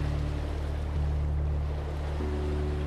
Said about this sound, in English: And then you're by the water and you can hear the waves. You can hear the waves coming in and then going back out to the deep ocean.